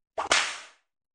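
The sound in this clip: A whip being swung: one brief swish followed at once by a sharp, bright crack that fades out over about half a second, heard alone.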